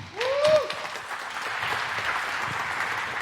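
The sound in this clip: Audience applause welcomes a speaker onto the stage at a talk on ransomware: a swell of steady clapping that settles into a sustained, even patter with no voices over it.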